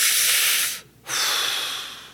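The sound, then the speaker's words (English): A deliberate, conscious breath in and out: two long, airy breaths with a short silent pause between them, the second fading gradually toward the end. “Stop and know you're breathing. Take time to really do it. It doesn't take but, what, a second to go,”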